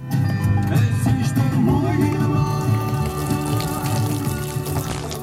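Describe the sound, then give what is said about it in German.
Alcohol pouring in a stream into a large blue plastic barrel in a barn beside a distillery, a loud, steady splashing rush with music from a car radio playing underneath. “Das Autoradio spielt, die Sonne scheint und der Alkohol fließt in Strömen. Allerdings nicht in den Mund, sondern in ein großes blaues Plastikfass in der Scheune neben der Lohnetalbrennerei”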